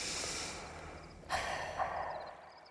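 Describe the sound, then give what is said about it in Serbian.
A voice imitating someone breathing by a window: a steady, airy breathing hiss, then two stronger, sharper puffs of breath. “Kad ti kažem, neko je pored prozora. Kad ti kažem, nema nikog, spavaj. Čuj, čuj. Neko diše, baš ovako.”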